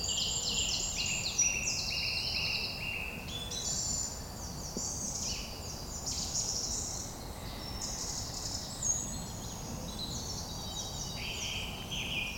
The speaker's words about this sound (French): Voici le troglodyte.